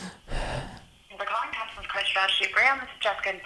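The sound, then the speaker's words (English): A telephone rings in a short burst as a call is transferred to a car dealership's service department; a voice then speaks. “To reach the service department, press 2. Wait while I transfer your call.”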